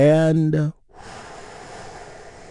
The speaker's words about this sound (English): Let's take one more deep healing breath together. Here we go.